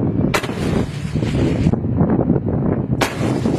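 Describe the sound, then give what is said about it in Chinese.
Infantry fighting vehicles firing during a live-fire exercise on a high plateau: two sharp, loud blasts about two and a half seconds apart over continuous rumbling engine and battlefield noise. “首轮射击后。前沿观察所计算偏差，修正参数。战车分队根据不同目标，采取多手段、多弹种方式实施第二轮射击。”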